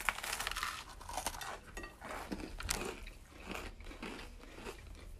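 Crisp bites and chewing into a peanut butter and jelly sandwich topped with chips, giving many quiet, irregular crunches and crackles that run on without talk.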